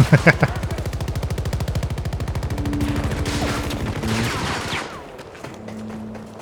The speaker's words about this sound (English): I'm gonna shoot and reload.